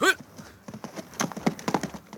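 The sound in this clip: Horse hooves clip-clop as a rider rides away, with many quick, uneven hoof beats in a loose, irregular rhythm.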